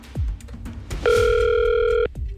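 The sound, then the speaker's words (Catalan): A telephone dial tone sounds as someone places a call. The steady, unbroken tone lasts about one second, with a few soft knocks and clicks before and after it. “Anem a marcar el telèfon de l'Encarni.”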